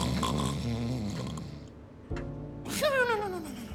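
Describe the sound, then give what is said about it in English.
Loud snoring from an aging father: a long, rasping snore, then a break, then another snore with a whistling, falling tone. “right now is snoring rather loudly. And if you're wondering what that sounds like, it sounds like this.”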